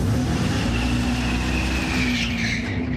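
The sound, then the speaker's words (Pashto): Tyres squeal from a fully electric Dodge Charger being driven hard: a loud, sustained, steady squeal over a continuous broad roar, with no engine rumble and no voices. “دا یو بشپړ برېښنايي موټر دی. په داسې حال کې چې د ربړي ټایرونو د سوځېدو بوی او غږ حقیقي دی”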